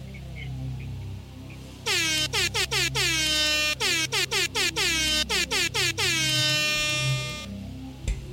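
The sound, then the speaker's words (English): Loud air horn salute of many rapid, repeated blasts in quick bursts, ending in a long held blast, with no voices. “That was a 17 air horn salute.”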